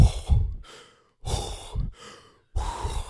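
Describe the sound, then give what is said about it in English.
A human voice imitates the deep breath of an annoyed brown bear swimming: three heavy, rough breath bursts, each huffing exhale separated by a short silence. “the sound of a annoyed brown bear swimming next to you is a sound you can never forget. Mm. It has this deep breath, and it's just like,”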